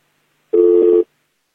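A single steady telephone tone sounds after a call is cut off, a flat electronic beep of about half a second that starts and stops abruptly and stands alone in silence.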